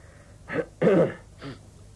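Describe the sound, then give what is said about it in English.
A performer at an audition clears his throat in three short, rough bursts. The middle one is longest and loudest, and the last is softer. “Right, if I ever need a throat clear, I'll be in touch straight away.”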